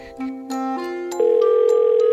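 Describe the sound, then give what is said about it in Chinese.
A telephone rings after being dialed again, a run of pure electronic tones that step between different pitches and grow louder in the second half. “尼古拉怎么都没有接电话，再拨一次看看好”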